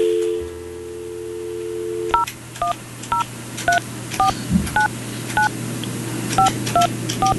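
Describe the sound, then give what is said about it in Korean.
A telephone dial tone hums briefly, then a long string of short touch-tone keypad beeps follows as a number is dialed for a live on-air radio call. “그래서 이 시간에 이분이 전화를 받으실지 모르겠지만 제가 한번 전화 한번 해볼게요.”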